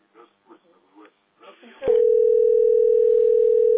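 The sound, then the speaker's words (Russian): A telephone line tone follows a sharp click: a steady, level, unbroken hum that runs loud to the end of an unanswered call, with brief muffled speech before it. “И сейчас вот звоню, опять не берет.”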